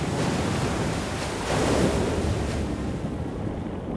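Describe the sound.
Sea waves surging in a steady, broad roar, loud and continuous with a slight swell in the middle, mixed with buffeting wind.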